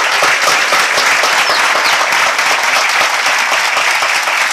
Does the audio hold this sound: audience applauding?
yes